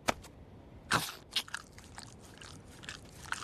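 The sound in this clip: Biting and chewing a meatloaf cupcake: a sharp crunchy bite, then a few more crisp bites and softer chewing sounds spaced irregularly, fairly quiet.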